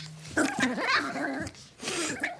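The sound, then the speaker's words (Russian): Newborn puppies indoors at night, making high whimpers, whines and yips that overlap in a continuous, wavering stream, with a short pause before a final burst. “Ощенилась наша Рита, во. Взяли щенков на ночь в дом, чтоб спросонья-то не задавила.”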